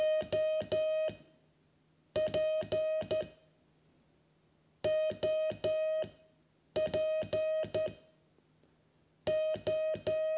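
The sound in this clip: Morse code tones spelling "OP", the amateur radio abbreviation for operator. Five bursts of rapid, steady mid-pitched beeps are separated by short silences, with each burst made of several quick on-off pulses.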